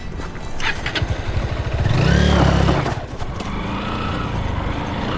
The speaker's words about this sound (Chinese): 你摩托车声音太大了，马会惊着的。